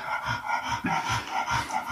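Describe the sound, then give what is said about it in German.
A dog panting: rapid, rhythmic breathy huffs that repeat steadily and fairly loudly throughout, with no voices. “Ist nur der Hund. Ist nur der Hund.”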